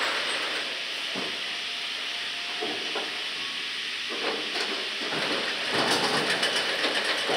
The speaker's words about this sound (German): Das Holz wird eingefördert. Die Maschine läuft an.